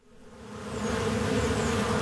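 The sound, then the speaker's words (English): Honeybees buzz at their hives on a sunny spring day in a downtown part of Omaha, Nebraska: a dense, steady, continuous drone that swells slightly at first and then holds level. “beekeeper Mark Welsh is taking advantage of the nice weather and checking on his honeybee hives”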